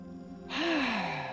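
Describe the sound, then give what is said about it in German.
A single deep breath, drawn in and released as a breathy, sigh-like exhale with a voiced tone that dips in pitch, fairly loud and heard alone. “Jetzt entscheidest du dich ganz bewusst mit einem tiefen Atemzug hineinzugehen.”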